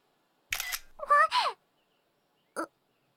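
Camera shutter of a smartphone taking a photo: a few short, bright clicking bursts close together, then one more brief click after a pause of about a second.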